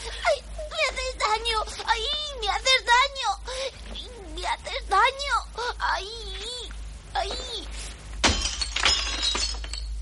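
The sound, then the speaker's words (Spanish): Glass shatters at night as an object breaks a window pane, a single sharp, bright crash near the end. Before it come voices and whimpering vocal sounds. “Por la noche un objeto rompe un cristal de la estancia en la que descansan Kit-chan y su mujer.”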